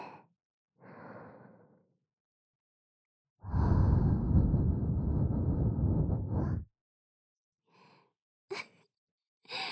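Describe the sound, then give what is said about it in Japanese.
Soft, warm breaths are blown close into the ear: a few separate airy puffs, one long sustained exhale in the middle, then a couple of short quick breaths near the end, with quiet pauses between. “ほら、お耳の中を割って、あったかーい吐息でくすぐって、”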